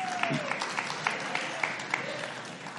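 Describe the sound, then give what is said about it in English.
A church audience claps thinly, a few distinct, regularly spaced claps standing out over a soft wash of scattered applause, with a brief voice at the start. “only 12 of you clapped at that.”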